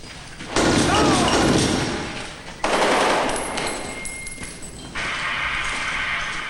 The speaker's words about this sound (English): Three rebels slowly walk toward the group, holding their hands up in surrender. The soldiers open fire on them.